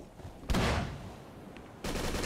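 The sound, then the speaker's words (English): Gunfire from a shooting video game, with shotgun blasts: two loud, harsh bursts of sound, each trailing into a rough, sustained rumble before the next shot. “It's just like spinning around and shooting their guns.”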